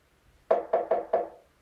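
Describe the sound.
Four firm knocks on a door in a quick, slightly uneven run, each a sharp mid-pitched rap with a brief woody ring, standing alone against near silence.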